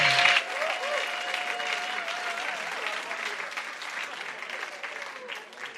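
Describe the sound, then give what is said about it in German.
An audience at a church conference applauds with dense, steady clapping throughout, easing off slightly toward the end. “Lass uns Bobby noch mal einen kräftigen Applaus geben”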